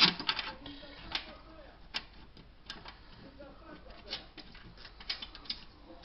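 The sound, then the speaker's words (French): Two screws being driven back into a Tectro TBH558 pellet stove, heard as faint, irregular light ticks and clicks scattered over a low background. “Là, c'est bon. Je remets les deux vis.”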